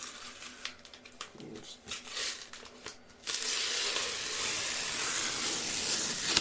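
A package holding a comic book being torn open: a few sharp crinkles and rips, then a continuous, fairly loud rasping rustle that holds steady to the end.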